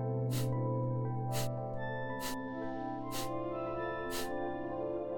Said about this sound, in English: So when you're ready, we're going to take about 30 seconds of our Kapalabhati. So, beginning to forcibly exhale, drawing the abdomen in.